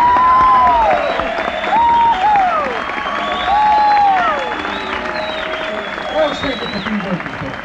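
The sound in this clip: Audience applause welcoming banjo player Earl Scruggs on stage at a bluegrass show, a steady wash of clapping with voices and calls rising over it.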